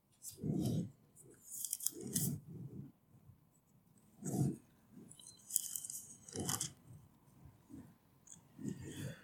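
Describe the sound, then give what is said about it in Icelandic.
Thin pages of a Bible being flipped to the Book of Genesis, producing several faint, papery rustles and swishes spaced irregularly, with soft low sounds between them. “Flettir nokkrum blaðsjöðum, fyrstu Mósebók blaðsjöðu 6, 7. kaflan.”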